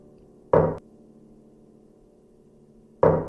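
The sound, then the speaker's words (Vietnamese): Eerie knocking on a canteen door: two separate dull thuds, each short and sharp, about two and a half seconds apart, with a faint steady hum filling the silence between them. “Tiếng gõ cửa quỷ dị kia đột nhiên truyền vào bên trong căng tin.”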